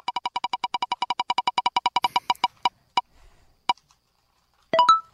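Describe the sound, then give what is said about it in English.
A spinning genre wheel clicks off rapid, evenly spaced ticks that gradually slow, spreading into a few isolated clicks before it stops, followed by a short tonal sound at the end. “It is a wheel that we will spin, and it sounds like this.”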